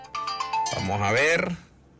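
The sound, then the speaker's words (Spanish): A phone ringtone for an incoming call: a short melodic run of bright, layered tones that swells briefly, then cuts off, fairly faint. “Tengo llamada.”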